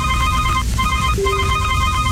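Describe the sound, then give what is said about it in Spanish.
A telephone rings with an electronic ringtone, bright repeating tone bursts separated by short gaps, heard alone without speech. “Yo no sabía que así sonaba nuestro teléfono.”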